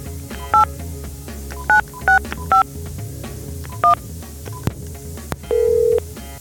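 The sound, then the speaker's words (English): Touch-tone dialing of a phone number to a cinema: five sharp dual-tone beeps at uneven intervals, a couple of faint clicks, then a longer, lower steady tone. “I always call Arclight Cinema to make sure that works. Let's listen.”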